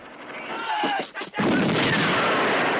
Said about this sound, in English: He lifts the hatch. Guards open fire from below. He drops a grenade inside.